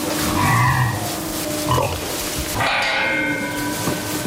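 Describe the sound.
Woolly pigs on a village pasture give a few low grunts and snorts over steady background noise.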